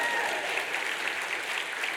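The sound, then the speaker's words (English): A polite golf clap from an audience at a church gathering where a pastor is speaking: a soft, light, even patter of clapping that stays steady for its whole short length. “I'll take that golf clap.”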